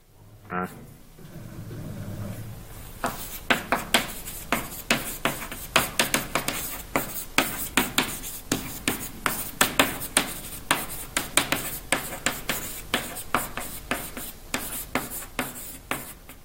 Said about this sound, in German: schreiben wir erstmal den Titel hin